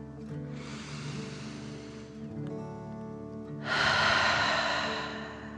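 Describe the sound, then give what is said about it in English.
Deep slow breathing from a kids' relaxation exercise: a long soft inhale, a pause, then a louder, breathier exhale that fades out, with gentle tonal music underneath. “deep dragon breath in and out.”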